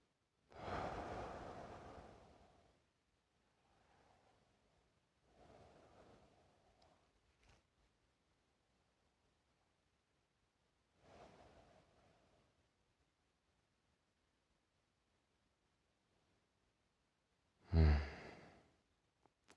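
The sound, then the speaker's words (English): Deep breaths taken slowly one after another: several long, airy, sigh-like exhalations separated by long quiet gaps, the first loud and full and the middle ones softer, ending on a short, sharper breath. “I take three breaths.”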